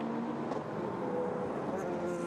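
Engine roar of Mercedes and McLaren GTD race cars battling for the lead at Daytona during an endurance race, a dense, steady drone with shifting engine tones.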